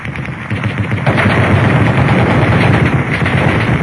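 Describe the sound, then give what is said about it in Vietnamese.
Light machine gun fire erupting ahead of a car on a deserted forest road late at night: loud, rapid, crackling gunfire that runs almost unbroken for about four seconds and grows louder after the first second. “Bất chợt, hai loạt trung liên nổ ròn rã phía trước xe.”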